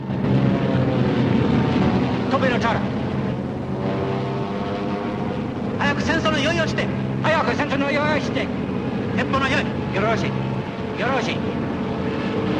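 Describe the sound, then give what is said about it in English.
Engine drone of Flying Tigers fighter planes flying in formation, a loud, steady hum that carries through the whole stretch with a few sharper bursts on top. “Veering off, the Flying Tigers head off in formation. A pilot in one of the Japanese fighter planes spots them.”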